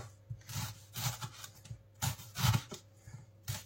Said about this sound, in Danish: Så skærer vi løget i skiver, i meget tynde skiver. Sådan her.